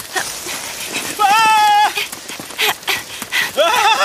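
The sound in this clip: Hooves of an antlered creature running behind bushes, quick, uneven clopping with a drawn-out tonal cry in the middle and a voice mixed in.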